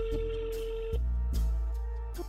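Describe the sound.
On an outgoing phone call, the ringback tone sounds as a steady, mid-pitched tone lasting about a second. A pause follows, over a low, constant hum.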